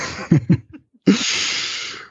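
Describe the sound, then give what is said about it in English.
A deep breath comes as a long, loud, breathy rush lasting about a second. A few short, soft huffs of breath come before it, with no talk. “the first thing I do is I take a deep breath.”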